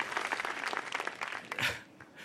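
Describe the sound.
Faint audience applause after a story at a live storytelling event, a brisk patter of many hands that swells briefly and then dies away near the end.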